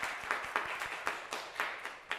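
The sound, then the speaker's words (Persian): Children clap for themselves in a religious studies class, a group beating out a steady rhythm of loud, sharp claps roughly every quarter second, with softer clapping between beats. “به افتخار خودتون دست بزنید.”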